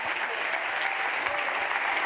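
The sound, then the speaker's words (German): Clapping from an audience at an award ceremony as a prize goes to a vocational school in Biedenkopf, a continuous, even patter of many hands with no pause. “Ich nehme das Mikrofon. Einmal großen Applaus”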